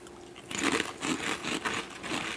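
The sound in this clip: Crunching on super-crispy cheesy snack chips: many dry, crackly bites and chews follow one another in a steady, fairly loud run, with no talking.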